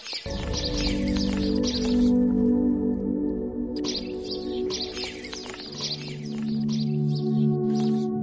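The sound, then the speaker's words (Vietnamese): A bird sings overhead, its bright high chirps and tweets coming in clusters, pausing briefly, then resuming over steady low sustained tones. “Con chim hót vang trên đầu đã đánh thức tôi dậy.”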